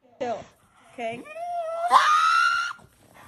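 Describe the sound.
A dog protests while its nails are trimmed: one short yelp, then a long, drawn-out, loud wailing scream that climbs higher in pitch before cutting off abruptly.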